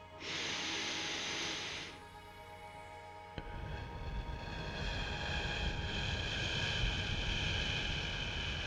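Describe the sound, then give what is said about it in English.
Noisy breathing exercise: a hissing inhalation of about two seconds, a brief pause, then a much longer, louder rushing exhalation that carries on steadily to the end. “can you see that my exhalation was very, very long, almost the double of the inhalation.”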